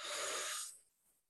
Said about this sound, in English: All right, so take a deep breath in and let it out.